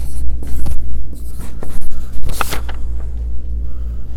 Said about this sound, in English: So I will write them. Where I'm taking a cue from you in writing.